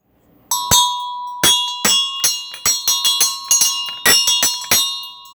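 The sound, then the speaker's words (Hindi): A hand bell is rung on a front porch, producing many bright, high metallic clangs in an uneven, rapid rhythm, each ring decaying briefly before the next. “Mini दौड़कर सामने के बरामदे में गईं और उन्होंने घंटी बजाई।”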